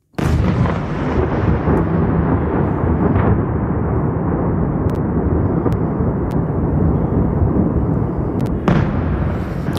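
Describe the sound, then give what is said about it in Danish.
Explosions during Russian attacks on Kyiv at night: a loud, continuous low rumbling roar throughout, broken by a few sharp cracking bursts, the strongest near the end. “det her er lyden af russiske angreb på Kiev natten til onsdag.”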